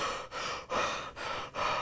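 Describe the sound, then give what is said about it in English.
A voice imitates panting after running up stairs: quick, heavy, breathy huffs, about five in a row, rising and falling in a steady rhythm with nothing else heard. “they were hardcore working out, and they were panting at the top. They got to the top and they were just standing there drinking water and being like,”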